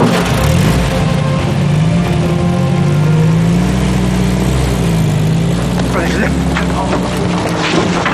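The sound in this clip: A car engine as the car starts driving: a loud, continuous engine drone whose pitch wavers slightly, with no break from start to end.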